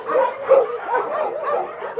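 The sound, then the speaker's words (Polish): Many dogs bark and yip at a dog shelter, with the sharp barks overlapping in a busy, continuous clamour that rises and falls without pause. “jesteśmy teraz właśnie w centrum, gdzie pieski sobie mieszkają.”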